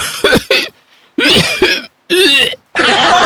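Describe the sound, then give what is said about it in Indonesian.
An old man coughs and retches in several loud, harsh bursts separated by short pauses, rough and throaty with no speech. “batuk tuluy ongkek”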